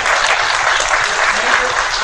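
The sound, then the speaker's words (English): Dense applause from a game-show audience, a steady, loud wash of many hands clapping that holds at an even level for about two seconds without voices on top. “Alright, let's give Demacy and my wonderful round of applause.”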